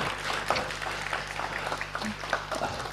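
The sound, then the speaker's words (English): Applause from a gathered group at a building committee meeting, where flowers, a card and a gift are being presented. A dense, steady patter of many hands clapping runs for about three seconds over a low hum. “Big round of applause for Judy.”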